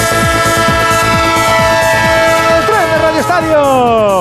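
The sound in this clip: A train horn sound effect plays as a sustained, loud, chord-like horn blast over a repeated pattern of falling pulses. Near the end the horn tones bend and slide before cutting off.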